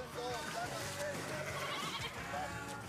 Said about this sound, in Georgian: ცხვარს სპეციალურ ხსნარში აბანავენ, პარაზიტების მოსაცილებლად.